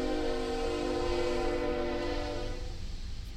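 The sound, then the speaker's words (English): A passing freight train coming from an old paper mill sounds its horn in one long, loud, steady chord rich in harmonics, which thins and softens over the last second. “My freight train is coming through. I know. I wish I lived where you lived. That's coming from the old paper mill.”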